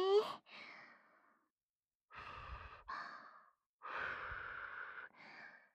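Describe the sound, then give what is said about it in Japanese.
Soft breaths blow on a spoonful of food to cool it, coming as several short, faint, airy puffs in pairs with quiet pauses between them. “ふうふうしますね。”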